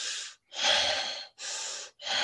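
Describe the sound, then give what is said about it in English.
A person performs the sob breath, a trance breathing technique: loud, harsh, breathy pulls of air in a steady rhythm, about three full breaths separated by short silent gaps. “and then there's the sob breath. We call it the sob breath because it, it it's um, looks like this”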